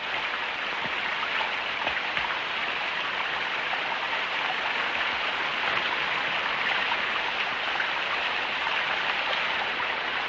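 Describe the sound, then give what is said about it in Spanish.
Rain falling in a forest, a dense, even hiss that holds at a constant level with no breaks or rises. “En el bosque, Suor entrena bajo la lluvia.”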